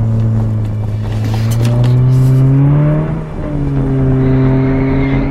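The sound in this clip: A car engine revs hard as the car is driven fast through bends. Its loud, droning note climbs steadily, dips briefly, then settles back into a strong, steady roar.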